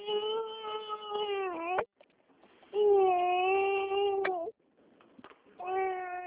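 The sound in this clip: An infant who has just woken up cries in an upset way: three long, harmonic wails separated by brief gasping pauses. Each wail holds a fairly steady pitch, then drops off sharply at the end.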